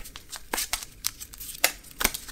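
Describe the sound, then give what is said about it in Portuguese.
Tarot cards are being shuffled: a run of short papery riffles and sharp snaps at irregular intervals, moderately quiet, with no voices. “Vamos embaralhar as cartas!”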